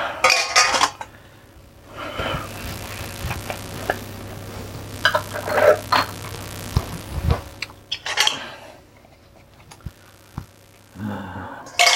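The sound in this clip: Glass jars and boiled jar lids clinking and scraping while the lids are fitted on: many sharp glassy and metallic clinks and rattles in uneven clusters, separated by quieter pauses.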